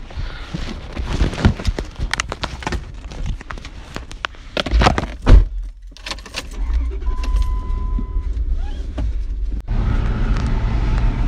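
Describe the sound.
Cars driving off as three vehicles leave for an on-site steak fry catering job: keys jangle and clatter, then a steady engine rumble builds and holds as the vehicles pull away.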